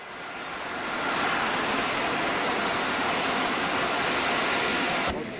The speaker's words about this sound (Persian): فرودگاه کرن، هواپیمای ایران ایر به زمین می نشیند.